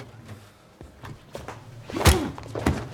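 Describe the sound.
A person is struck from behind and knocked down: one loud, heavy thump near the middle, with a few softer knocks and bumps around it and no talk.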